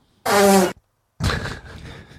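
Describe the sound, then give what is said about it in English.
Two fart sounds played back: a loud, tonal, half-second blast, a short silence, then a longer, rougher, buzzing one that trails off. No voices are heard. “Play that fart for me.”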